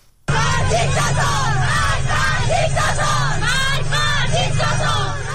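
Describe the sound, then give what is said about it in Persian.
Schoolgirls who have removed their hijabs chant protest slogans in school and street, a loud crowd of young voices shouting in rhythmic unison, sustained and unbroken for several seconds. “صدای دختران دانش آموزی که با برداشتن حجاب در مدرسه و خیابان شعار می دهند.”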